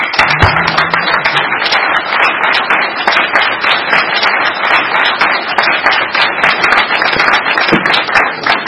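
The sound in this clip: Applause from an audience at a meeting as a speaker is welcomed: dense, steady clapping that fills the whole clip at an even loudness, with no voices standing out.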